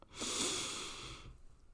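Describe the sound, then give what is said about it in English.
A single slow, deep breath taken as a calming exercise, a soft airy hiss that swells quickly, holds, then gradually fades out, faint and heard alone. “So let's breathe together three times.”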